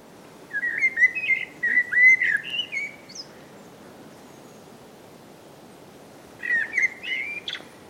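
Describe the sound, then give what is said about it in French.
Bird song played through a speaker at a ringing station to lure migrating birds: two bursts of bright whistled phrases, the first longer with several repeated notes, separated by a quiet gap. “On utilise de la repasse pour attirer les oiseaux autour de la station de bagage.”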